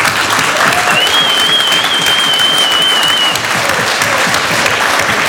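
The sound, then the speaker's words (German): Applause from the audience at a political congress, a dense, loud, even roar of many hands clapping that stays steady from start to finish. “dafür sollten wir ihnen einen kleinen Applaus zukommen.”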